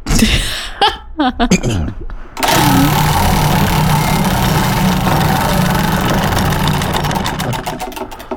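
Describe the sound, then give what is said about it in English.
A wheel of names spinning during a morning radio show. Brief talk gives way to a rapid, steady whirring tick, and the clicks spread out and slow toward the end. “we can go ahead and spin the WBGL Morning Show with Jonathan and Court Wheel of Names.”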